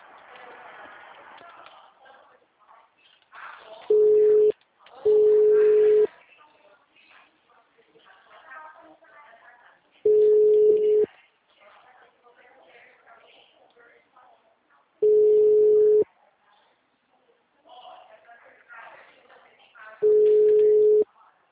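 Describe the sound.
Telephone line tones play while a call is being transferred: five steady, mid-pitched beeps come at uneven intervals over a faint murmur of background sound.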